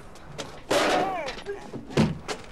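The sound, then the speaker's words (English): A door being forced open with a shoulder push, heard as a heavy slamming thud followed by a second, sharper thump a little over a second later, both loud against an otherwise quiet background. “Tom pushes on the door with his shoulder and manages to break in.”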